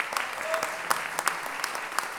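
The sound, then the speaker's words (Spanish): Audience applause for a guest at the launch of a feminist décima poetry collection: brisk clapping with several sharp, distinct claps standing out from a steady bed of hands. “Maga Dalia, un aplauso para la mamá.”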